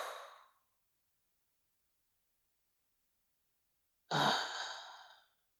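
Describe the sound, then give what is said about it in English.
Deep exhaled breaths during a relaxation breathing exercise: a soft breath trails off at the start, then after a few seconds of silence comes one long, breathy exhale that fades gradually. “Another deep breath in. This time when you exhale, drop inside into the belly.”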